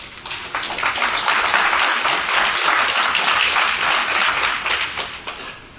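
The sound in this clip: A crowd applauds to welcome a speaker to a talk: dense, loud clapping swells quickly, holds steady, then tapers off at the close.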